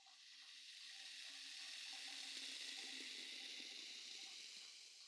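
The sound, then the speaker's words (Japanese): Carbonated foam sprays out onto fingertips with a soft, steady fizzing hiss that swells slightly and thins toward the end, faint and unbroken for several seconds. “仕上げにもう一つ、したいことがあるのです。炭酸の泡を指先に出しまして、”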